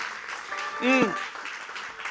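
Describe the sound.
Congregation clapping during a church service, a faint, dense patter of many hands with a brief shouted voice rising over it near the middle.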